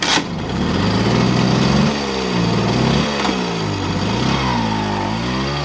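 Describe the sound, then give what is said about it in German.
A moped circles a market square, its small engine buzzing steadily, then its pitch dips and climbs repeatedly as it turns, loud and continuous throughout with no talk. “Vincent Hagen fährt mit seinem Moped auf dem Marktplatz im Kreis”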